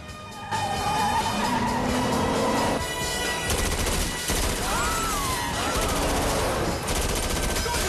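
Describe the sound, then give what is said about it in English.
Submachine gun fire during a car chase: a dense, continuous rattle of shots with car noise and skidding tyres, loud throughout. “With the speedy corner dangerously close, Peoples lets rip with his submachine gun.”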